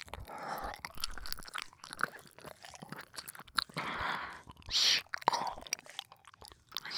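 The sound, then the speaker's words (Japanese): Wet licking and smacking mouth sounds around an ear run continuously, with soft slurps, clicks and crunchy moist textures rising and falling in intensity. “先ほどのようにお耳を舐めながら処理させていただきます”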